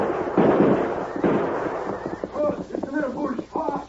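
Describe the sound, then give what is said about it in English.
A radio-drama shootout opens with a few loud, harsh gunshot blasts in quick succession, followed by excited shouting voices. “It's them. Aim for Brandon. Shoot!”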